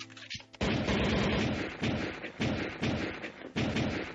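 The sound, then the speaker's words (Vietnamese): Gunshots fired up at a ceiling: several loud, heavy booming blasts with rumbling decays that run into one another, leaving almost no quiet between the shots. “Tiêu Tân Nghiêm triệt để là phát điên lên, rút súng ra hướng lên trên trần nhà mà đã nhiều phát súng”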